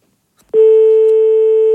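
A loud, steady telephone busy tone sounds after a call is hung up. It follows a brief silence and a faint click, then holds at one unbroken pitch to the end.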